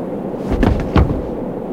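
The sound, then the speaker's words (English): A gunshot: two heavy, booming blasts a little under half a second apart, rising out of a steady background hiss. “Crazy bastard shot himself.”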